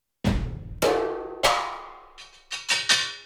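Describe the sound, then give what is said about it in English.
Sampled metal percussion flourishes from a multi-sample metals ensemble library: several bright, ringing metallic strikes with long shimmering decays, followed by a quicker cluster of hits near the end, alone with no voices. “I'm going to be playing some decorative flourishes on this jam using a percussion multi-sample contact library called Heaviosity Ensemble Metals, and it sounds like this.”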